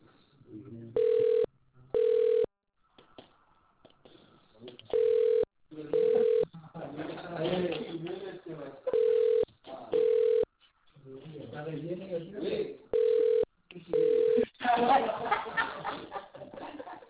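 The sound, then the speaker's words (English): Ringback tone while a call is transferred to a company's customer service line: four pairs of short, steady mid-pitched rings in a regular double-ring pattern, with faint voices and chatter between them. “Please wait while I transfer your call.”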